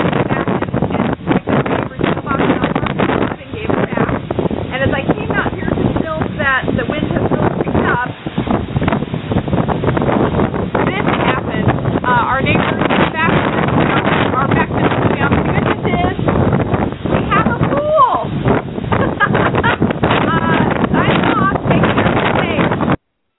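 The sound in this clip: Storm wind in Baton Rouge roars without a break, buffeting the microphone with heavy, rushing gusts that stay loud throughout.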